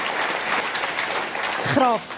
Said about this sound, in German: Simonetta Sommaruga, ja, bitte. Für einen Applaus.